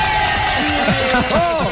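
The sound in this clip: Crowd cheering and applause as a man accepts the presidency of a neighbours' residents association, a loud, continuous roar of clapping with shouted voices rising and falling through it.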